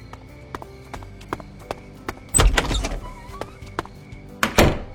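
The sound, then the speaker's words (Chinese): A car door being opened, heard as a loud clunk and rattle after a few faint ticking clicks, then a second heavy thump a couple of seconds later. “温小辉打开车门冲下了车。”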